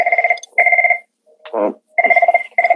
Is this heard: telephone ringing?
yes